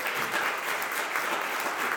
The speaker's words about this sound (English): Let's all give Byron a round of applause.